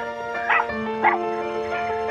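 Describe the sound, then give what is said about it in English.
A dog gives two short, sharp yips over steady music that plays throughout. “That's the dog.”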